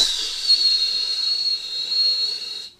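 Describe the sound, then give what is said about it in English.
A voice imitates a loud, shrill whistle in a forest, one steady high-pitched tone with a breathy hiss that holds for nearly three seconds and then cuts off. “a little giant loud whistle echoes through the forest.”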